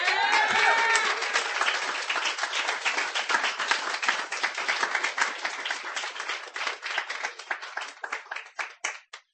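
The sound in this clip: Audience applause for a performer at a live reading, a dense burst of clapping that holds steady, then thins into scattered individual claps that fade toward the end.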